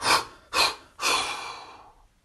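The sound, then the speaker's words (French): Three forceful exhalations blown out through the mouth while the shoulders drop, loud and breathy. The first two are short, evenly spaced puffs; the third is a longer blow that gradually fades out. “et à l'expire, je descends les épaules et en soufflant bien par la bouche plusieurs fois.”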